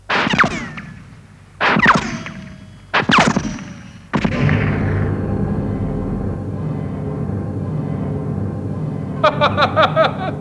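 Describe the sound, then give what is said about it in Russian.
Four sharp pistol shots are fired at a scarecrow's pumpkin head, spaced roughly a second apart. The last is followed by a sustained rumbling tail, and a quick run of faint clicks comes near the end. “О, держу пари, что если ты дашь 4 выстрела в голову этого пугала, то ни разу не попадешь. В эту тыкву? Да. Ну, это уже слишком. Дай-ка мне твой пистолет.”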